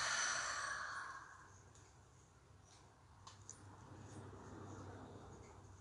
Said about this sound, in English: Again, invite a deep cleansing breath into your body. Open the mouth, release, let it go.